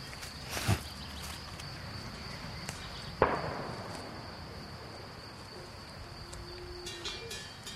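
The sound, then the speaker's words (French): Two sharp rifle shots, the second louder with a short decaying tail, stand out against a steady, faint hum of crickets and insects. “Encore ce maudit coup de fusil.”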